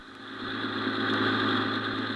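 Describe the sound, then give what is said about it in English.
The engine of a free sightseeing tour bus hums as it drives, a steady mid-pitched drone with a slight swell in loudness. It runs continuously with no voices. “Just another day to send their free sightseeing bus on a tour of our fair city. So let's go back a few hours and board one of these buses as it makes its way around our glamorous”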